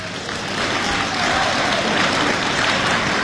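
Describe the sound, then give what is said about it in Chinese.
Applause from a live audience at a stage comedy show, where the performer has asked for clapping. The sound is a dense, steady patter that swells slightly after the first second and continues without voices. “这掌声不热烈，怎么唱着呢？”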